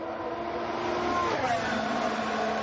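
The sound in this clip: Ricciardo's Formula 1 race car runs a lap with a high, droning engine whine that shifts in pitch partway through.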